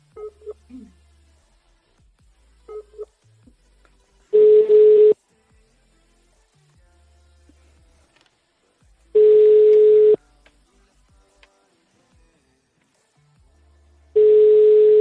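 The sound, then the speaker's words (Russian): Telephone ringback tones sound while a call is placed again: three long, steady, mid-pitched beeps about five seconds apart. Near silence and a few faint short noises fill the gaps. “Так, сейчас еще раз ей перезвоню.”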